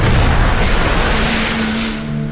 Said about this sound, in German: Der Frachter, der sie von Hongkong nach Tacoma bringen sollte, kämpfte in schwerer See gegen haushohe Wellen.